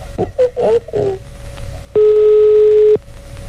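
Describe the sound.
A telephone rings unanswered: after a few brief voice sounds, a single steady electronic ring tone sounds for about one second, then stops.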